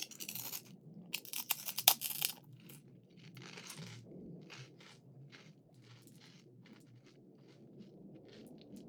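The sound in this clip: Crunchy food is bitten and chewed, with a dense burst of loud, sharp crunches over the first two seconds, then softer, quieter chewing that continues to the end.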